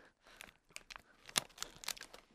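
Dried mealworms seasoned with sea salt and pepper crunched while eating: faint, brittle crackling and several sharp snaps over about two seconds, with no voices.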